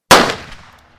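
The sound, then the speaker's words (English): A single gunshot from a gun firing a blank: one loud, sharp crack that decays over about a second. “Matt raises the gun and slowly aims at the man. Matt fires.”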